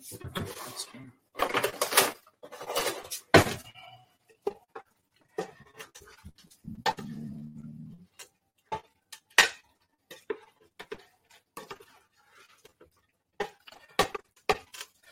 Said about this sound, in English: just want to stir this up and get all that cheesy tomato goodness all over these uh, rotini